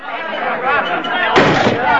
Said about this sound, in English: The room is suddenly reduced to silence as Liberty Valance and two of his gang burst in through the door.